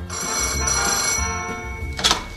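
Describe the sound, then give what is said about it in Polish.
A telephone bell rings loudly in sustained, shrill bursts, followed by a short noisy clatter near the end. “Halo, słucham. Dzień dobry, Grudziądz. Dzień dobry, czekamy na ten telefon.”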